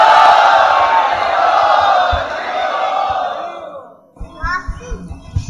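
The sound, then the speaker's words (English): A crowd loudly chanting "Hari Bol" in welcome at a Hare Krishna gathering, a loud, sustained shout of many voices that fades away after about four seconds, followed by quieter scattered sounds. “Let's welcome him to NVCC by loudly chanting Hari Bol!”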